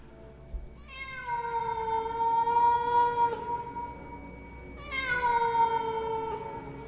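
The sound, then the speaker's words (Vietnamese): A cat yowls outside at night near a village, two long, drawn-out wailing cries, each holding a high tone before trailing off, loud and alone. “Ở bên ngoài phụ cận quanh thôn vang lên tiếng mèo kêu đến thê lương, nghe vào mà rợn hết cả người.”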